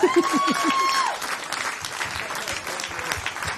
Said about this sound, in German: Ich erwarte an dieser Stelle einen Applaus vom Publikum.